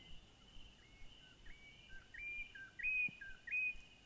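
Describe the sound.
Birds singing in the morning: many short, high chirps and whistled notes, growing busier toward the end, faint over a low background hiss.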